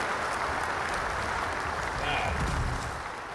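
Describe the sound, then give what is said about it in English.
Canned applause sound effect on a slots gambling show, a dense steady wash of clapping with voices talking over it. “Oh, applause. Hit it. We'll play our applause.”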